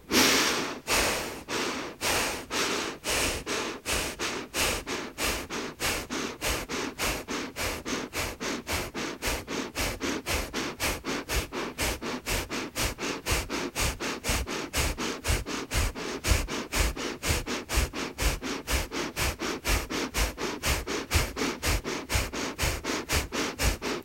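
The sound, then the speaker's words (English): Paced belly breathing through the nose, a long run of sharp, rhythmic sniff-like breaths that start a little slower and settle into a fast, steady pace, with many even repetitions and no talk. “And then increase the pace, keeping that breath in the belly to a pace that's comfortable for you.”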